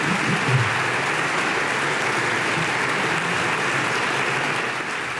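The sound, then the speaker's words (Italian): Dense, sustained applause from an assembly hall audience on its feet after the head of state's speech at a ceremony marking 80 years since the Constituent Assembly's inaugural sitting, a steady roar of clapping throughout with no talk. “l'Aula si è appena alzata in piedi, ha applaudito il discorso del Presidente della Repubblica”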